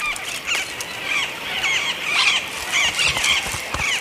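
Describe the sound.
Parrots squealing noisily as they forage for southern beech nuts: many short, shrill, harsh calls overlap continuously at a steady level, with faint rustling beneath and no voices.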